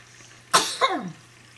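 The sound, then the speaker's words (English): A single sneeze: a sharp, loud burst of breath followed by a quick falling, voiced tail, then quiet. “hold on, I got to sneeze.”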